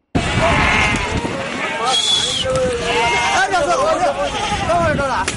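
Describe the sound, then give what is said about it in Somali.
Sheep and goats bleat at a livestock export market in Bosaso where camels and cattle are also traded. Several wavering, overlapping bleats rise over a constant murmur of people talking. “Halkani waa suuqa lagu kala iibiyo xoolaha nool ee loo dhoofiyo dalka dibadiisa, kuwaas oo isugu jira geel, ari iyo lo'.”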